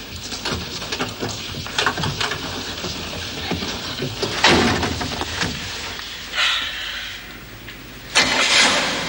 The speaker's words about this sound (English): why don't we start it up and take this baby for a spin?